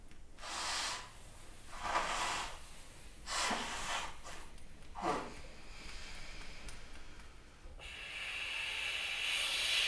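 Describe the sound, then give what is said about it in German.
Quiet airy breaths pass through the nose during a guided breathing exercise, with exhaling through the left nostril. A few soft hissing puffs come at uneven intervals, followed by a longer, steadier hiss near the end. “wenn ihr nicht mehr halten könnt, atmet links aus.”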